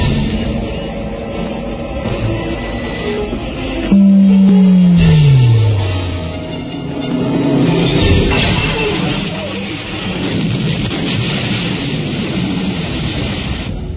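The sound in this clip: The Death Star superlaser firing in a Star Wars film: a dense roaring blast surges louder at about four seconds as a tone slides steadily down in pitch, then sustained rumbling noise swells and recedes, with no voices.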